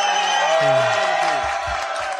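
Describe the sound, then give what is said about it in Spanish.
Crowd applause blends with cheering and whoops, a loud, steady wash of noise with raised voices on top that trail off near the end. “Sí, un aplauso, vamos.”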